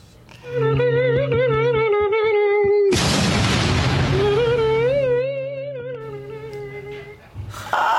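Full trash cans tipping over with a loud, clattering crash midway, set amid a sustained, wavering tonal sound heard before and after the fall.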